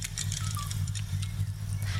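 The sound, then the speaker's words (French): Light rain patters in scattered soft ticks over a steady, loud low rumble, with no voices. “Il faut s'arrêter un instant. Ça pleut.”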